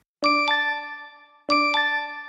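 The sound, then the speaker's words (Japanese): LINE messaging app notification chime rings out twice, each time a bright two-note chime with long, shimmering decay, the two chimes identical and spaced about a second apart. “送られてきた LINE の音にハッとした。”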